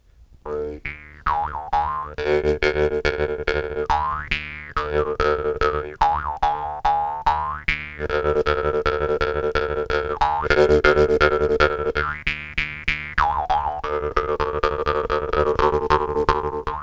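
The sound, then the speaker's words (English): A jaw harp twangs steadily, each pluck giving a springy, boinging buzz over a constant low drone. The overtones swoop and shift as the mouth changes shape, keeping a loud, pulsing rhythm throughout. “Yeah, I really like the primordial, like guttural sounds. Yeah. This jaw harp, too, really.”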